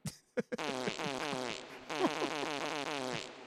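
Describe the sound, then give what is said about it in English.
A soundboard fart effect with a gurgling, underwater quality: a few short pops, then a long, loud, bubbly blast with a warbling buzz that runs for about three seconds. “Why does your fart sound like it's underwater now?”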